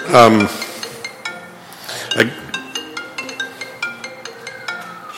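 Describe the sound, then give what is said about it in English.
A mobile phone rings during a senate committee meeting, its ringtone a quick string of bright, bell-like chiming notes that repeat in a steady rhythm for several seconds, with a brief bit of voice at the very start. “Somebody's forgot to turn their phone off, apparently, huh?”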